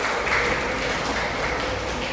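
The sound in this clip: A class of pupils applauds a classmate for a correct answer, their clapping merging into a continuous, fairly loud patter that stays level from start to finish.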